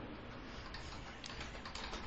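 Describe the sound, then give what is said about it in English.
Someone types on a computer keyboard with two fingers, entering a search. The key clicks are faint, quick and irregular, with no talking. “You can hear the typing. Yeah, he's so you know typing away. Okay. With two fingers.”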